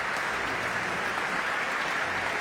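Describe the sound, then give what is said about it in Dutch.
Concert audience applauding the conductor after a performance, a steady wash of many hands clapping at an even, moderate level throughout. “En u hoort het applaus voor het dirigent Tiani Lou.”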